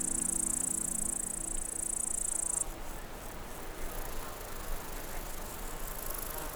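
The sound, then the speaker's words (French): Grasshoppers chirp in an alpine meadow at about 1600 metres altitude. A steady, high-pitched buzzing trill fills the first half, then cuts off, leaving fainter scattered high chirps over a soft background hiss. “la prairie électrisée par le son des sauterelles criquées.”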